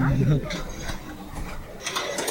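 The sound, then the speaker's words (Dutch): Mechanical clacking and rattling from a Space Rider pinball machine being played, a steady jumble of small knocks and ratchet-like clicks at moderate loudness, with some voice near the start. “Wat ben je aan het doen? Ik ben een beetje met pinball aan het kloten. Space, Space Rider.”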